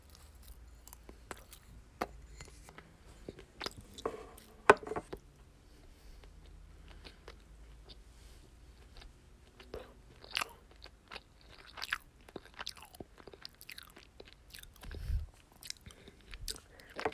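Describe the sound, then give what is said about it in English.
Crunchy chewing and biting of a strawberry-themed treat: soft, close crackles and crunches repeating irregularly throughout, with no talk. “I'm just gonna eat this and it tastes good, okay?”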